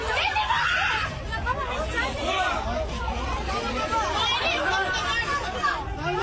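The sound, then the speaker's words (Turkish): Passengers in life jackets scream in panic on a sinking ship off Girne: a dense crowd of shrieks, cries and frantic chatter, loud and continuous throughout. “Can yeleği takmış yolcuların panik içinde çığlık attıkları görüldü. Bazı yolcular çocuklar var diyerek feryat etti.”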